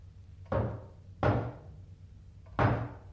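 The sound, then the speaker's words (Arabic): Three heavy knocks strike a door, each a dull, resonant thud that decays quickly, separated by uneven pauses with quiet in between. “دي خبطة الشطر علي وما يفتح حنيشة.”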